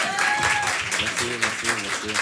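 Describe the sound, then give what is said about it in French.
A live audience applauds warmly, a dense, steady patter of many hands clapping throughout while a voice talks over it. “Le public se rapproche et applaudit très chaleureusement.”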